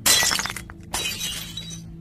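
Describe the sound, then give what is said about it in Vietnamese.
A mirror is smashed and its glass shatters in a sharp, loud crash, followed by a second burst of breaking and tinkling shards that trails off. “đập vỡ tan tành cái gương”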